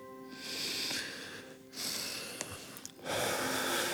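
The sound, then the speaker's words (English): A group of people each take a single breath in and out, heard as a few loud, noisy, airy rushes of breath with short pauses between them. No one speaks. “Breathe in and out once. Now.”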